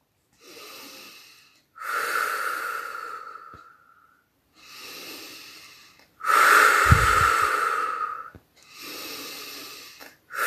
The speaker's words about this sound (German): atme dreimal tief ein und aus.